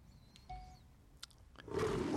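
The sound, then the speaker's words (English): A lion roars in a film studio logo, its loud, rough roar bursting in near the end and holding. Faint sustained tones and a few brief clicks come before it. “There's the lion. Leo the lion.”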